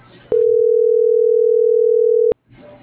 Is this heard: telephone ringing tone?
yes